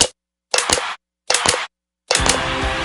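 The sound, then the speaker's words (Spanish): Sharp plastic crackling from a 100% recycled, recyclable plastic water bottle comes in three short, loud bursts separated by silence, followed by a longer, sustained crinkling burst. “Hemos descubierto que detrás del sonido que produce la nueva botella EcoPack 100% reciclada, 100% reciclable de agua cristal, se esconden otros sonidos de sus vidas pasadas.”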